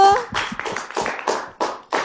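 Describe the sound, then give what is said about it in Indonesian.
Children in a studio clapping their hands together in unison: a run of sharp, bright claps in a steady rhythm, each burst separated by short gaps. “Masya Allah, tepuk tangannya dulu.”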